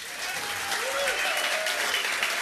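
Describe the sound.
An audience at a concert applauds to welcome a performer to the stage, producing brisk, steady clapping with faint cheers mixed in throughout the short burst.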